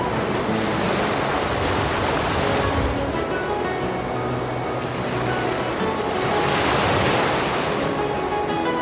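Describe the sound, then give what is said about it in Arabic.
Stormy sea at night with rough, mountainous waves and strong gusting wind around a sailing vessel: a continuous loud roar of surf and wind that swells around the middle and again near the end, with no voices. “حينما جن علينا الليل دارت ريح عاصفة وأصبحنا في موج كالجبال.”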